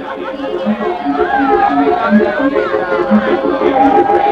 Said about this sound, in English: You're going back to your first real job. Your first fight. You're back at the carnival, fighting all comers.